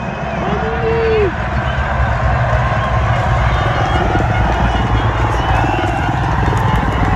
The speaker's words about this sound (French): mais là on entend vraiment la clameur du public.